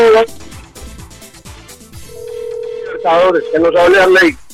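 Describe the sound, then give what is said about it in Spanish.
A steady telephone call tone sounds while someone phones a friend who is having trouble connecting by satellite. The tone holds for a couple of seconds, partly masked by people talking loudly over it. “No, es que lo estoy llamando.”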